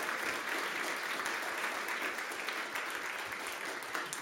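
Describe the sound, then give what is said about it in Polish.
Sustained audience applause at a ceremony after congratulations, a dense, even clatter of many hands that carries on steadily for several seconds. “Te brawa, te oklaski na pewno są dowodem na to, że to nie jest sen i że te sny się spełniają.”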